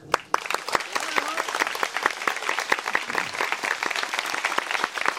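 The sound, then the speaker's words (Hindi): Audience clapping during a devotional storytelling session about Krishna and the gopis: many sharp, distinct hand claps in an uneven, lively patter over a fainter bed of crowd clapping. “तो गोपियों ने बहुत तालियां बजा, बजाओ”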